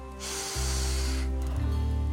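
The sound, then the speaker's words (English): Air hisses steadily as an inflatable airbed is blown up in a fairy-lit tent, a broad airy rush over sustained low background tones that then falls away, leaving the tones alone. “She makes her way over to Mia's fairy lit tent, where Susie's blowing up an airbed.”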